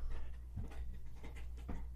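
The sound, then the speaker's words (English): Faint dog noises, soft panting and a few low whimper-like sounds, come from a dog chewing on a toy. A quiet steady background hum sits under them, with no voices. “if you hear anything, that's just their dog in the back. She's chewing on a toy.”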